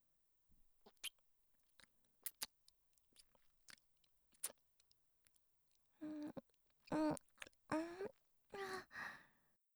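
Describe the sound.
Soft wet kissing and lip-smacking sounds made close to the ear, many small clicks and smacks followed by a few louder breathy sighs toward the end.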